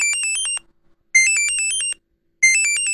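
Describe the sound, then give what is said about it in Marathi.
A mobile phone ringtone plays three loud bursts of bright electronic warbling tones, with short silent gaps between them and no other sound. “अरे थांब, सुखदाचा phone आहे.”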